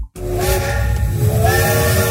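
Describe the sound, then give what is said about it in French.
A steam train whistle sounds after a brief silence, then holds a loud, steady, shrill tone with rich harmonics and a hissing edge for about two seconds. “Alors, a priori, avec ce train-là, tu vas mettre 4 jours à arriver en Bretagne.”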